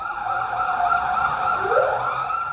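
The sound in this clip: Wailing sirens of ambulances and police cars on a blocked street outside a school in central Belgrade: loud, continuous high tones overlap, and a second wail sweeps upward near the end over a low traffic rumble.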